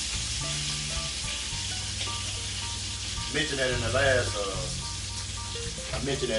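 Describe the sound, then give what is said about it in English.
Turkey bacon sizzling in a pan gives a dense, steady hiss and crackle throughout. A voice briefly rises over it in the middle. “Y'all hear that? Turkey bacon. Turkey bacon.”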